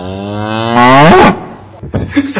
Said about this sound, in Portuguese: Eu tenho uma curiosidade tão grande do coitado do boi que é ladrão lá no Ceará que só foi apanhar.